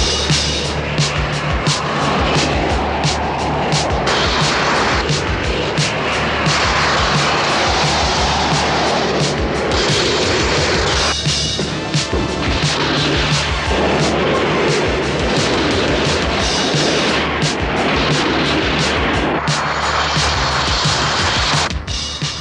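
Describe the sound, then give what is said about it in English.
Astro fighter spacecraft launch and fly in a loud, continuous roar of jet-like engines. A dense rushing din with rumbling bursts holds steady throughout, with no voices. “General! Launch every astro fighter we have. Launch all astrofighters.”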